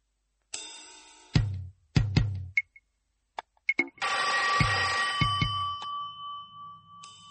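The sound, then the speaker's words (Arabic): A telephone bell rings with bright metallic tones, first in a few sharp, separate strikes and then in a longer, sustained jangling ring. Nobody speaks over it. “حد يرد على التليفون.”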